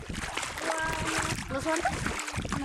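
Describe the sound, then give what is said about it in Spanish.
Water splashes and sloshes steadily and continuously, a lively, bright wash of watery spatter with voices faintly underneath. “Escuchen al agua, que es refrescante.”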